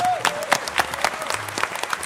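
Audience applause at a fan convention: a crowd clapping in a brisk, fairly regular patter of sharp claps, moderately loud and continuous throughout.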